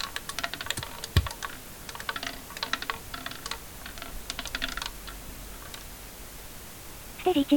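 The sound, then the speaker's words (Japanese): Computer keyboard clatters under fingers as the Enter key is struck, with many quick, light key taps in an uneven typing rhythm and one louder press early on. “もう一回エンターを押すと、この回ってるのが止まります。押します。”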